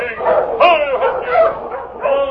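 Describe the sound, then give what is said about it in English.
A sled dog team barks out in a storm: a quick run of high, yelping barks and whining yips that overlap one another with almost no pause. “Hey, it's a dog team. Wonder who's out in this storm.”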